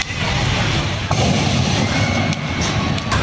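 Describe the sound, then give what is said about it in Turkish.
A few dull bursts as a car that caught fire while being driven in Erzurum explodes, heard over a loud, continuous roar of burning. “Erzurum'da seyir halindeyken alev alan otomobildeki yangın patlamalarla büyüdü.”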